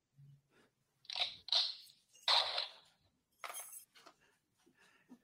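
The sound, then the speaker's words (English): A door is being locked with a few sharp metallic clicks and clanks, short rattling bursts that are fairly faint with quiet gaps between them. “hold on, let me lock my door”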